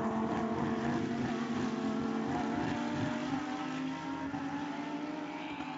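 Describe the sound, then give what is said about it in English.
A Lamborghini Huracán Super Trofeo Evo race car at speed through a track bend on worn Pirelli tires, its engine a loud, continuous droning whine with strong harmonics that holds nearly steady and eases slightly toward the end. “Down through Bishop's Bend, 145 miles an hour in one of these Lamborghini Huracan Super Trofeo Evos when everything is right.”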